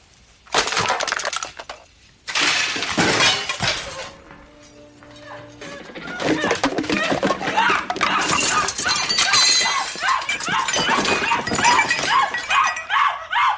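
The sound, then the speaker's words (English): Loud, repeated crashes and shattering as objects, including a pot roast, are swept off kitchen counters and the oven. Many impacts and breaking sounds come in bursts, with a dog barking and whimpering amid the clatter. “throwing everything off of the counters of everywhere, including the pot roast off of the oven.”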